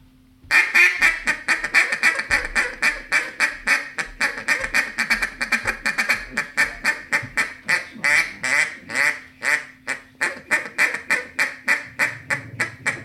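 A hand-blown duck call sounds a hiccup cadence of many rapid, rhythmic quacks in repeating loud pulses to draw in circling ducks. It runs steadily throughout with no talk.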